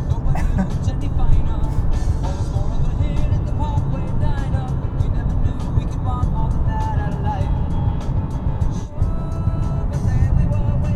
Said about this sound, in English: That shifter shifting, downshifting thing bugs me.